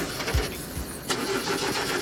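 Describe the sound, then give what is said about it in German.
A limousine's car engine is started: a couple of low starter turns, then the engine catches and runs on in a rough, uneven idle at a fairly quiet level. “Draußen steht eine Limousine für euch. Steigt mal ein und anlassen.”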